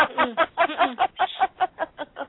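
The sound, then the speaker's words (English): A pet bird sings in a quick, steady series of short, bright chirping notes, fairly loud and evenly spaced, with no other sounds alongside. “Can't be Birdie Bird because he's singing.”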